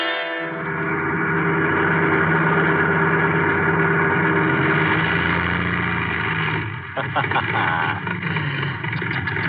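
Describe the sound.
A car engine drones steadily and then sputters in a few uneven, choppy bursts as it runs out of gas, staged as a sound effect in a Nero Wolfe mystery drama.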